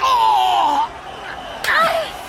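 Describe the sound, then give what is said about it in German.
A slap in the face in a German radio play: a single crisp, sharp smack that stands out after a quieter stretch. “Die Ohrfeige hast du verdient. Oh, gut gezielt, Butterblümchen.”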